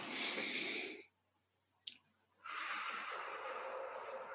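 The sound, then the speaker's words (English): Deep breaths drawn during a guided calming exercise: two long, airy breath sounds separated by a silent pause, with a brief faint click in the gap. “Second breath in. Stomach goes out. Shoulders low. Third breath in.”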